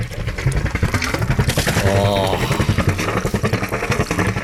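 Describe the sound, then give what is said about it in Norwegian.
A sailboat motors under engine power during a regatta, its engine giving a loud, rhythmic, throbbing chug with a clattering edge that pulses steadily throughout. “Det er lyden av en seilbåt.”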